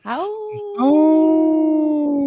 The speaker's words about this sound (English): Native Roots Radio, and you know, we got a howl for our sacred wolves